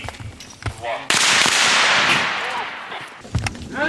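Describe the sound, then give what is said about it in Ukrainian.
Gunfire from live ammunition during a special police battalion's hostage-rescue training drill: a sudden loud sharp burst followed by a sustained crackling roar that slowly fades, with voices talking before and after it. “Як і на всіх своїх тренуваннях, використовували бойові патрони.”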